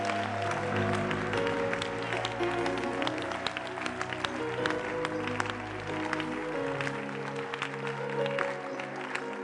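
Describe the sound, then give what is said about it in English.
A church audience claps its hands in praise to Jesus. Steady, continuous hand claps carry through the whole stretch over sustained musical tones. “Are you clapping hands for Jesus?”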